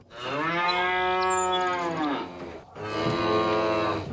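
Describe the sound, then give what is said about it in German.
Cattle on hilly pastures in Panama's Azuero region give two long, loud moos with a rich harmonic tone. The first lasts over two seconds, and the second follows after a short pause. “400.000 Rinder ziehen über Asueros Weiden.”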